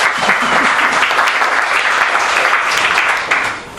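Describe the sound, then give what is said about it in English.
An audience applauds to welcome the guests of a panel discussion, a loud, dense burst of clapping that holds steady and then thins out at the end. “Welcome, everyone. Please give them a hand.”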